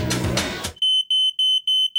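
A smoke alarm beeps in a rapid series of shrill, high-pitched electronic chirps. They follow a short burst of music that cuts off abruptly, and each beep stands alone against silence.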